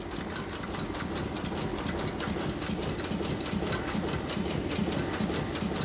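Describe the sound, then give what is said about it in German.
A coin minting press stamping gold coins at the state mint in Pretoria, South Africa, producing a dense, continuous mechanical clatter with a rapid, regular rhythm and a steady level throughout. “Diese Maschine, mit der er geprägt wird, steht in Pretoria, der Hauptstadt Südafrikas.”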